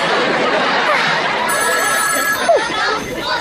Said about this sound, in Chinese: 哦，你等等，有电话进来了。